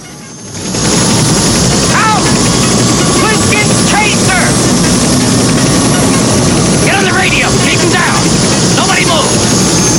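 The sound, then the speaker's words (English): Helicopter blades whirring as Chopper number 3 sits ready for takeoff: a loud, steady, continuous rotor and engine roar that holds throughout, with voices heard over it at times. “Watches over to Chopper number 3, whose blades are whirring, ready for takeoff.”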